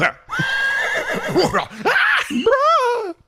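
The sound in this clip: A horse whinnies loudly in a scene from a film, giving several long, wavering neighs whose pitch swoops up and down, ending on a high, quivering cry.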